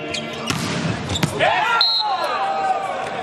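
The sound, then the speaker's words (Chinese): Sharp volleyball impacts as Wang Bin serves in a match against France: two crisp thumps, then a brief high squeak, over a steady murmur of arena noise. “王斌来发球，”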